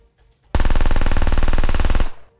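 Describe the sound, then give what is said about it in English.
Automatic gunfire from an Israeli Tavor TAR-21 assault rifle: one loud, sustained burst of many rapid shots lasting about a second and a half, then a brief fading tail. “Feza emerged from the clearing, guns blazing.”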